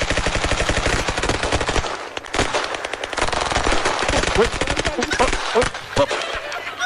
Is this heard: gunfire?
yes